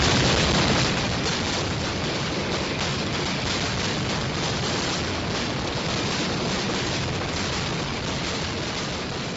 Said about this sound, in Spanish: la pirotécnica Mediterráneo de Vilamarchant dispara 338 kilos de pólvora. Nunca antes se había disparado tal cantidad en la ciudad de Castellón.